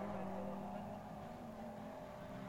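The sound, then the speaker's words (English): A Core Motorsports Aston Martin race car drives by during a Michelin Pilot Challenge race at Elkhart Lake, its engine a steady, loud droning roar that holds throughout. “Here comes the second place Core Motorsports Aston Martin, and again we'll have to find the right spot to pass that little red Veloster”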